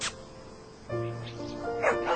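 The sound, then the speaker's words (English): A downstairs dog barks at a cat, giving a few short yipping barks and a whimpering tonal whine at moderate volume. “Nellie, the downstairs dog, is barking at Mr. Minsky's all-night cat.”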